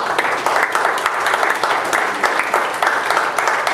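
A church audience claps for the Lord during a service, giving steady, dense applause from many hands that stays even and loud throughout.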